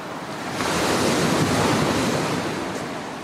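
Ocean surf and wind at the Cliffs of Moher in Ireland, a loud, continuous roar of breaking waves and gusting air that swells early and holds steady, with no voices.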